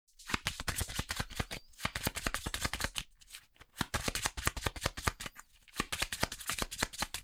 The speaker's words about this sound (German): Und ich misch wieder alle Karten.